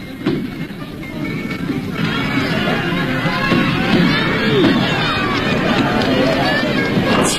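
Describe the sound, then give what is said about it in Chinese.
Crowd noise at a horse racing track during an annual festival: a steady, dense roar of many voices and cheering with rushing, running movement underneath, holding at an even level throughout. “赛马场上聚集了很多人，大家欢呼着笑着，这是他们一年一度的节日。”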